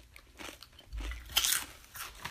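Crisp crunches of someone biting and chewing small-batch sweet potato dessert chips: a few sharp, distinct bites spaced unevenly, each with a bright crackle, and no talking.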